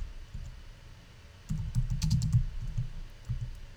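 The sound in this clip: Typing on a computer keyboard: a few soft, scattered keystrokes at first, then a louder run of quick, irregular clicking taps, with one final short burst.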